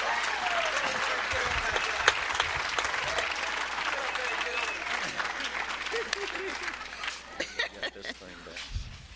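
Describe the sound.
Audience applause welcoming a woman onto a stage: dense, steady clapping from a crowd that holds throughout, then thins into scattered claps near the end.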